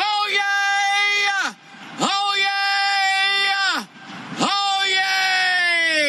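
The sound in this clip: Three long, very loud human screams from a record-setting screamer, each a sustained, harmonically rich cry that drops in pitch as it ends, separated by short pauses.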